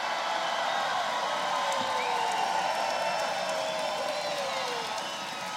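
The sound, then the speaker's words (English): Crowd cheering and applauding at a political rally during a speech on repealing Obamacare: a steady, dense roar of clapping and voices with whistles and whoops cutting through, easing slightly near the end. “And by the way, I have to tell you, always gets one of the most incredible applause.”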